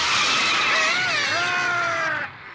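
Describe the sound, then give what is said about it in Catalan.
A car brakes suddenly and its tyres skid to a stop with a loud, wavering, high-pitched screech over broad rushing noise. The sound cuts off abruptly just before the end. “L'Ulong frena en sec.”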